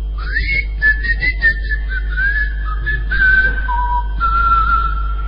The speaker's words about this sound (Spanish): A poco de llegar a Tracoda, se escuchaban los silbidos de los habitantes.